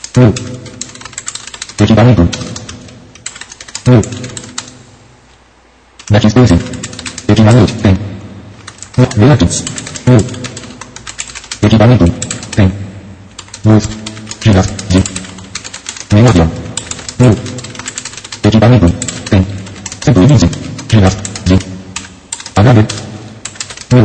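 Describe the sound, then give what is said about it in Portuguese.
Typing a short text on a computer keyboard: rapid, loud key clicks come in steady bursts, with one brief pause near the start, and no one talks. “eu vou digitar um pequeno texto aqui, só para a gente poder trabalhar.”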